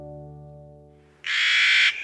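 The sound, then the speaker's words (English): A harsh, grating call of a Clark's Nutcracker, a gray seed-hoarding bird of the American West, rasps once for over half a second, following a steady low humming tone. “Meet Clark's Nutcracker, master of hide-and-seek, on today's Nature Watch.”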